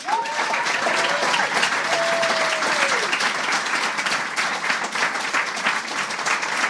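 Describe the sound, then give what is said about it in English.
A panel audience gives a round of applause to the Conan writers, sustained dense clapping at an even loudness. A few whoops ring out within the first few seconds. “Please give a round of applause to the Conan Writers.”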